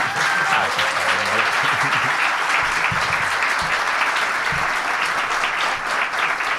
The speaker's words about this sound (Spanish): ahora no quiero que aplaudáis. Quiero que aplaudan solo el público local de Jorge Guerra. A ver qué tal lo ha hecho. Solo los que habéis venido de su parte. Y ahora el resto, a ver qué tal.